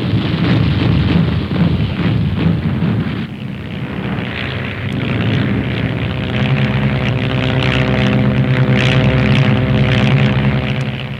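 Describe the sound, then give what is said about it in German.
Propeller fighter planes of the German air force dive from the clouds for a low-level attack on an enemy airfield, a loud, continuous roaring engine drone with a steady humming tone throughout. “Sind die Jäger am Ziel. Aus den Wolken stoßen sie herab zum Tiefangriff auf den feindlichen Flughafen.”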